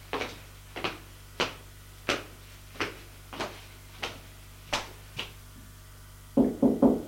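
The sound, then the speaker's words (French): Knocking on a bedroom door: a steady series of light, evenly spaced thuds, then three quick, heavier knocks close together at the end. “Frappe. Pas de réponse.”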